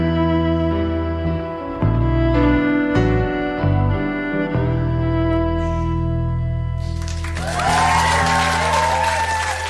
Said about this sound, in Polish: I dołączyłem się do tych oklasków.